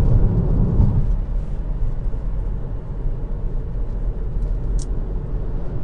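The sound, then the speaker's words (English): A car driven slowly and cautiously gives off a steady low engine rumble and road noise. The sound is slightly heavier in the first second, then holds an even drone with no voices. “So, sorry, just cautiously driving here, like the Nana that I am.”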